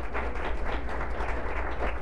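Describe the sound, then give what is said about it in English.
Applause from a church audience during a morning service, a steady wash of many hands clapping at moderate level, with a low hum underneath and no clear voices. “Give them a good round of applause, would you please?”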